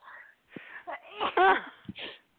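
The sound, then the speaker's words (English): Someone with a slight cold sneezes, with breathy, wheezy intakes building to a couple of sharp bursts, heard alone. “Hold on, I have to sneeze. I have a little bit of bless cold here, so I might have so a series of sneezes.”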